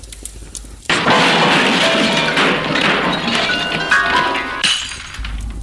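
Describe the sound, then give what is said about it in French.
A loud crashing thud as something knocks against a piano in a chalet, followed by about four seconds of dense rattling, clattering noise before it cuts back to quiet room sound. “Ah, t'as frappé le piano.”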